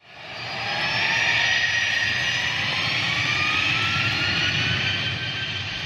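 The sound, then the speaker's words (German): Jet engines roar as a Boeing 737-800 airliner takes off on the Greek island of Samos. A loud, broad, continuous rumble with a high whine swells quickly at the start, then holds steady throughout. “Die Boeing 737-800 startet auf der griechischen Insel Samos.”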